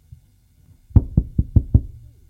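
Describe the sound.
Five quick knocks on a door, sharp wooden thuds evenly spaced about a fifth of a second apart, loud and alone against near silence, with one faint tap just before.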